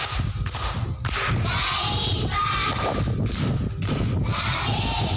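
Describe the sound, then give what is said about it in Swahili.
Applause from primary school children for a pupil's correct answer in a classroom quiz, a dense, steady patter of many hands clapping that carries on without a break, loud and unbroken throughout. “Amepata amekosa? Amepata. Makofi kwa Moni.”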